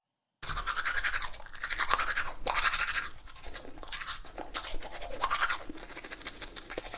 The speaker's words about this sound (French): Je me brosse les dents.